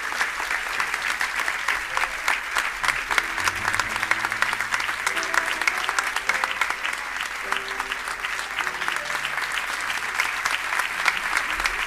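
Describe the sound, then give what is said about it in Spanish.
Sustained audience applause at a charity concert, a dense, steady clatter of many hands clapping loudly throughout, with a faint low hum and occasional soft voices beneath. “Ellos verdaderamente son los que se merecen esta ovación.”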